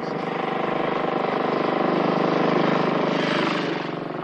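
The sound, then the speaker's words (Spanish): A motorcycle with a sidecar rides along a road in a 1957 drama film, its engine giving a steady buzzing drone that swells a little in the middle and eases off toward the end. “Después Andrés y Teresa circulan por la carretera en la moto con Sidecar.”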